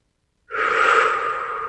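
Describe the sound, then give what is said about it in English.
A single deep breath: a breathy rush of air that starts abruptly, holds steady for just over a second, then eases slightly. No talking. “Deep breath right there.”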